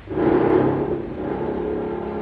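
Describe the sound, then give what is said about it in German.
Aircraft engine running in a steady, dense whirring drone that swells slightly at the start and then holds level, with no voices. “Lindbergh spricht mit seinem Motor.”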